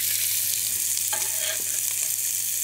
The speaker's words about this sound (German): So, in Butterschmalz wiederum. Ein bisschen Zwiebel an.